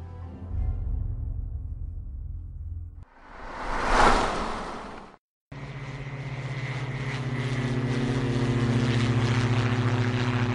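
Airplane engine drone in flight: a low steady hum, then a rising whoosh that swells and cuts out briefly, followed by a loud, sustained engine roar with a steady tonal hum beneath.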